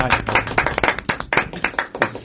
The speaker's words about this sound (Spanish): Bueno, fantástico, Ricky Morgade. Vamos a aplaudir.